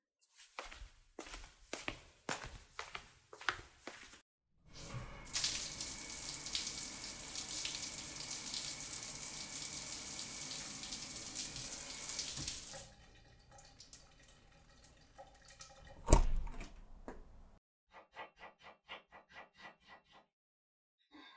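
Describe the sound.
Tap water runs for a bath in a steady, hissing rush for several seconds, bracketed by a series of sharp knocks beforehand and scattered clicks and drips afterward.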